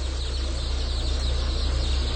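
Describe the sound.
Many chicks peep busily and constantly over a steady low mechanical hum from a hatchery sorting machine with moving conveyor belts. The chirping is dense and unbroken throughout, with no voices.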